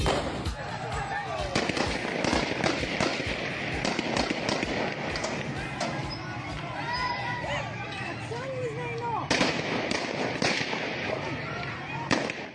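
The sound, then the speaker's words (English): Crowd at a peaceful women's-rights protest demonstration in Afghanistan, with voices shouting amid loud, sharp cracks of gunfire from the authorities, several bangs scattered through a constant roar of noise and movement. “That was the sound of a peaceful demonstration held a couple of weeks ago in Afghanistan, protesting, declaring, demanding the right for women to be seen,”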